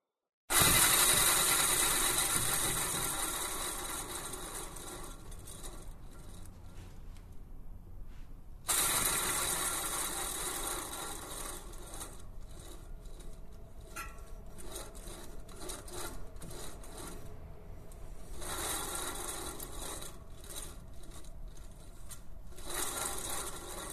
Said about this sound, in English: The Guillermo Galindo sculpture and sound piece made from a bicycle wheel is called Listo, which translates as ready to go, and let's have a listen.